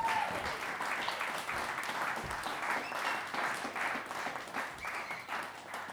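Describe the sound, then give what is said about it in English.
Audience applause welcoming a performer onto a stage: a dense, steady wash of many hands clapping that holds at an even level throughout, with no voices over it. “Please put your hands together and welcome Andy White.”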